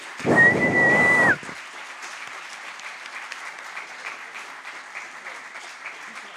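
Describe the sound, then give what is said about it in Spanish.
An audience bursts into loud applause with a high, sustained whistle riding over it, lasting about a second before cutting off to a faint, steady background murmur. “Fuerte el aplauso para Fede Velasco”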